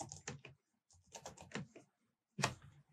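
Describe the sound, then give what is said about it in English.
Clattering computer keyboard as someone types a search into Bandcamp, coming in three quick bursts of clicks separated by short pauses. “I've literally typed New World Audio and the fucking thing don't come up.”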